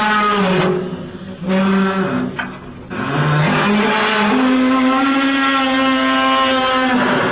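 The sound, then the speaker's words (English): An eerie squealing groan comes from the brake bands of an old windmill: a loud, sustained harmonic tone that wavers in pitch at first and then holds steady, heard alone without talk. “It's quite an eerie sound, and it's strictly the brake bands of the old windmills.”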